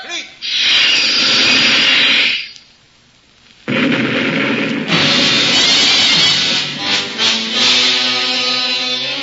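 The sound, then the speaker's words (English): Captain Nemo's submarine fires a torpedo at a warship: a loud rushing roar breaks off briefly, then returns as a heavy, churning rumble with whining tonal lines near the end. “Torpedo one. No, Captain, they won't have a chance. Fire!”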